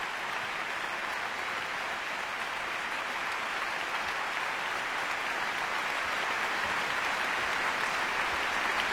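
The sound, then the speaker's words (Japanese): Prolonged applause from a concert audience after an NHK Symphony Orchestra subscription concert: an even, hissing wash of many hands that holds steady and unbroken for the full length. “大きな拍手が続いています。”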